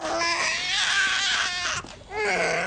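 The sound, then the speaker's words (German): A newborn baby boy cries incessantly in a film scene, wailing loudly and continuously in high, strained tones, pausing briefly for breath near the end before the crying starts again. “Saga und John haben offenbar ein Schreikind zur Welt gebracht. Es hört und hört nicht auf.”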